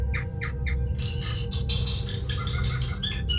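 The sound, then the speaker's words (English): Bird chirps played back from a video, meant to imitate a bird heard in a jungle: a quick run of high, bright chirps and squawks over a low, steady hum, growing denser midway through. “So the sound of the bird, right? Okay, I'm just gonna try to play it from YouTube,”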